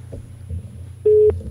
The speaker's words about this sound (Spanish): A ver si entra esa llamada, que el internet ya sabes que muchas veces... Ahí ya empezamos a escuchar el tono.